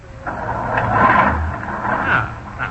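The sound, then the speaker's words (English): A car engine started with a large starter button makes a rough mechanical rumble and whir that swells toward the middle, with a low throb underneath, then carries on at a steady moderate level. “Starter is that big button right over there. Yeah. Well, hold on, everybody. Here we go.”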